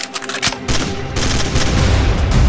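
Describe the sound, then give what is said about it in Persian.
Gunfire during a terrorist attack on pilgrims at the Shah Cheragh shrine at the evening call to prayer: loud, rapid bursts of shots running together into a dense, continuous fusillade. “که هنگام اذان مغرب یک تروریست با ورود به حرم شاه چراغ به سمت زائران شلیک”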